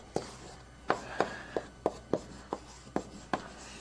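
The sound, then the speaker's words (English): Marker or chalk strokes scratch across a board during a lecture on red-black trees: nine short, sharp scraping strokes at an uneven pace, fairly faint, with no speech. “And this will take a little bit of time to write down, but it's all pretty simple. So once I write them down, I'll say what they really mean.”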